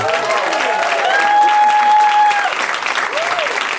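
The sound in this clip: A studio audience applauds guests arriving on a talk show: loud, continuous clapping with a sustained cheer riding over it.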